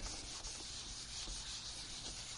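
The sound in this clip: Writing on a board during a class, heard as a steady, dense scratching and rubbing with slight dips in level and no voices.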